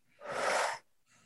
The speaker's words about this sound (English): we're going to take a nice deep breath in through our nose. Now open your mouth and blow out.